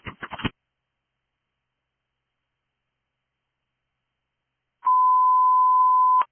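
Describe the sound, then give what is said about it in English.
Radio dispatch test tone for a fire station: a few short crackly bursts at the start, then a long silence, then a steady, fairly high beep held evenly for about a second and a half. “Test tones for station 18. Test tones for station 18. Test tones complete at 1504.”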